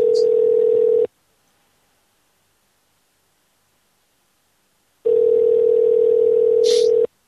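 Telephone line tone while placing a call to the David L. Lawrence: two steady, low, buzzy tones of about a second each, separated by a long silence.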